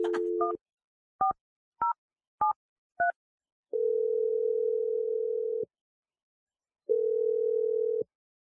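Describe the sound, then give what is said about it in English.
A telephone dial tone plays while a number is dialled. A brief steady tone gives way to five quick two-note keypad beeps, then two long, even ringing tones separated by a silent gap. “I'm dialing number right now.”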